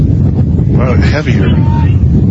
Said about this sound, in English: A little gust here. Gusting.